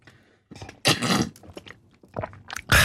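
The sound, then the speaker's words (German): Someone taking a sip of a drink: a few wet slurping and gulping bursts with small clicks between them, fairly loud and close, with no talk. “Nein, nochmal einen Schluck. Sorry, aber bei dem Wetter sollte man laut Ärzte und der FIFA regelmässig Trinkpausen einschalten.”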